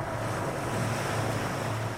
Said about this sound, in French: Cela commence par un son. Un simple son de vague enregistré sur la côte atlantique.